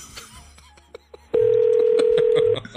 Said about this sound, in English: Let's see what's going on with this number. Hold on right here. We're going to dial it.